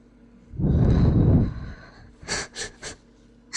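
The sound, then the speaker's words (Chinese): Deep breathing with feet held up under the nose: one long, loud, rushing inhale, then three short, breathy puffs of exhaled air, each fainter than the breath in. “抱着我的脚放在鼻子下面深呼吸，然后吐气。”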